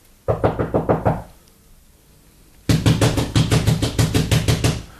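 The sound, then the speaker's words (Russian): Knocking on the low log door of a hut, in a storm: a quick burst of about six sharp knocks, a pause, then a longer, louder run of many rapid knocks. “Кто стучит?”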